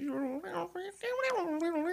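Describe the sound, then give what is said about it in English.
A man imitates a cat with a few drawn-out, meow-like cries. His voice wavers, rising and falling in pitch across the short run of sounds. “He's also been spending way too much time with cats, just in case you're concerned by that noise.”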